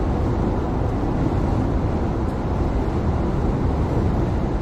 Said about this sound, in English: right now, I'm driving through one of the famous tunnels of the Pennsylvania Turnpike. One out of three tunnels from my way to Philadelphia.